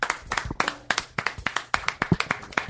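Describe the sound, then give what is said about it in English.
Hand clapping from the audience at the end of a comedy show: sharp, separate claps in a rough, repeating rhythm that sound like only a handful of people, with no voices over them. “How about a nice round of applause for Chris Fairbanks?”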